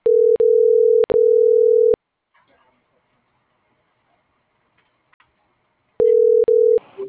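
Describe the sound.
A telephone line tone sounds while a call is being placed: a steady single-pitch tone repeats in several segments, gives way to near silence with faint clicks, then returns briefly before the line picks up.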